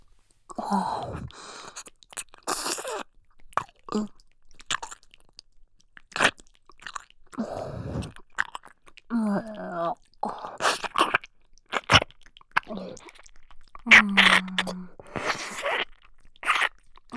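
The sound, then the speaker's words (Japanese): Close ASMR mouth sounds of nibbling and chewing on an ear: wet clicks, soft crunches and bites in irregular bursts separated by near silence. “こっちの耳も美味しいよ。少し噛んじゃうね。”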